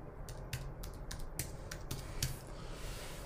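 Typing on a computer keyboard while writing out a title, a quiet, uneven run of soft key clicks.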